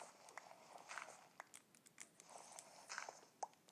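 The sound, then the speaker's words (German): Faint, crunchy munching as a character eats drumsticks in the Minecraft video game. Many soft, irregular bite clicks form a quick uneven run, with no talk. “jetzt sollte ich vielleicht wirklich was essen. Ich habe nur noch 3 Keulen.”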